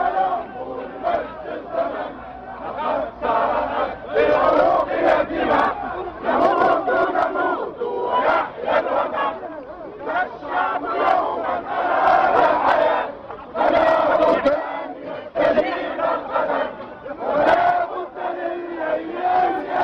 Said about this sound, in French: Ce que vous entendez est issu d'une vidéo mise en ligne sur YouTube le 20 janvier 2011. Des prises de vue amateurs s'y enchaînent. Elles documentent la révolte qui secoue depuis plusieurs semaines la Tunisie.